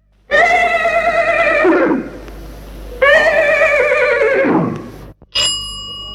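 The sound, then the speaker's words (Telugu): A horse neighs loudly twice, each whinny a shrill, harmonic cry lasting under two seconds that trails downward in pitch at the end, with a short pause between them. “ఇది గుర్రం సకిలింపు.”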